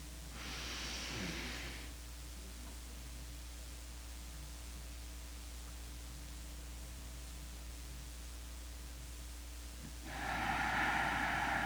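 Slow, deep relaxing breaths taken while lying down: a soft, breathy rush of air at the start, a long quiet gap, then another breathy rush at the end, all faint over a steady low hum.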